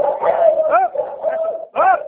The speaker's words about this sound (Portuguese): Peraí, que tem um cachorro aqui, peraí.